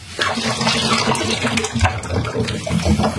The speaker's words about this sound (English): Now I'm going to turn it the other way up so that my sterilizing fluid runs into that.